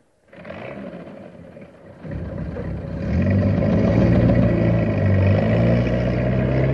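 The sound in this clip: A tank engine rumbles as the tank drives off, a loud, low, rough roar that steps up twice in strength and then holds steady.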